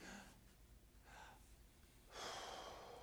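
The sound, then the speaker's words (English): A deep breath fills the belly and then the chest before being blown out: two short, faint intakes are followed by a longer, stronger breathy exhale, all quiet and with no talk. “I'm going to ask you to fill your belly, then your chest, and then blow it out. So it looks like this.”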